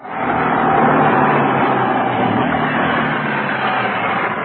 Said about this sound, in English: Yes, it was at this point that a messenger drove up. Let me show you. Now, just hold this pick up and put it on when I tell you.